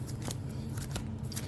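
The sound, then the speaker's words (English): Cards slide off the top of a Pokemon card deck as a hand is drawn, making soft, quiet rustles and light flicks in a quick series. “So you draw 7 cards on the top of your deck.”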